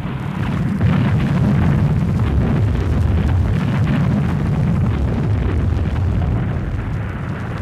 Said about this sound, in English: Montgomery's preparations for El Alamein were thorough, and as you can hear from this archive recording, the violence of the artillery barrage was devastating.